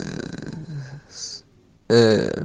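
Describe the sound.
A person who has dozed off snores with rasping, voiced breaths and a brief hissing intake between them, then falls quiet before one strong, buzzing snore.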